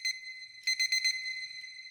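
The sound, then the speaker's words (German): An alarm clock rings with high, thin electronic beeps. A short beep is followed by a rapid burst of several pulses, then a softer trailing tone, all fairly quiet. “Lisa stellt sich zum Beispiel für alles Mögliche einen Wecker. Selbst wenn sie in 10 Minuten zum Bus muss.”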